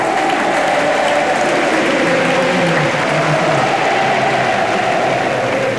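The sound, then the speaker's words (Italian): Tennis crowd roaring and applauding as Jannik Sinner lifts the trophy, a dense, loud, unbroken wash of clapping and cheering that holds steady throughout. “Sentite il pubblico, sentite il pubblico che invoca il suo nome.”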